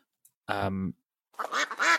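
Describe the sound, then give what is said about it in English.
A duck quack sound effect plays as a jingle: one drawn-out nasal quack, then a voice right after it. “the question that took me far too long to find that jingle. whilst we're on that subject, duck. There we go. It's the question, duck.”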